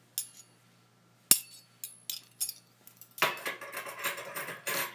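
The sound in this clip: Cutlery and dishes clink during a meal: a few sharp, isolated clinks of metal on crockery, then a busier run of clattering and scraping in the second half.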